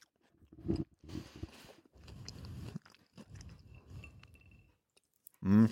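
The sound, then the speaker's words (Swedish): Crunchy chewing of a chocolate-covered, salty corn snack: several irregular crisp crunches and bites, fairly faint, with a louder, sharper crunch at the end. “Så ska man få det här lite söta med chokladen och sen då lite salta med den här majssombreron och det spröda kommer på köpet.”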